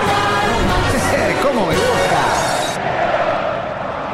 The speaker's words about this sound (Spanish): Canta el público glorioso en el estadio Kempe